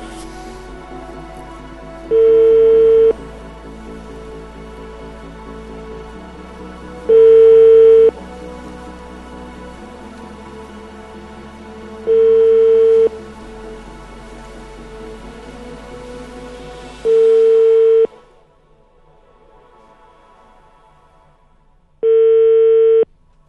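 Ringing tones sound while a telephone call is placed. Five evenly spaced tones, each about a second long, repeat every few seconds. Faint background music plays under the first four and stops before the last.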